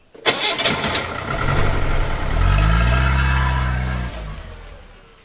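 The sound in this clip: A car engine starts and the car drives off: a steady low engine drone that builds and climbs in pitch, then drops away near the end, with no voices.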